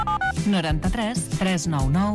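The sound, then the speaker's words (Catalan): Telephone keypad tones dialing a taxi company's number: two quick electronic dual-tone beeps at the very start, followed by a voice. “Truco a Ràdio Taxi Catalana?”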